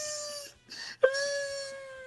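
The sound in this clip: A person's wailing cry: a drawn-out moaning tone breaks off briefly, then a sharp sob starts a second long, steady wail that holds to the end.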